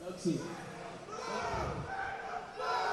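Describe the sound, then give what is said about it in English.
Cheering from a crowd at a robot combat event, a sustained wash of many voices that swells louder near the end. “Got some cheers going on right now. Some cheers in the crowd.”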